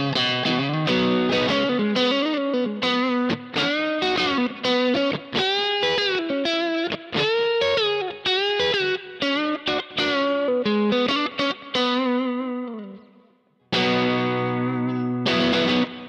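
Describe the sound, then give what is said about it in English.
Distorted electric guitar played through a Greenback-type speaker cabinet profile: a rock riff of chopped chords and ringing notes with full low end. It runs loud and steady, fades to near silence, then returns with a final burst of chords. “You can hear how much more low end is in that greenback type speaker than was in the gold right before it.”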